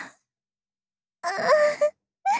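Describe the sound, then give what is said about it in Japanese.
Someone bursts into wailing, crying out in a few loud, drawn-out, high-pitched cries broken by short silences. “泣き出した”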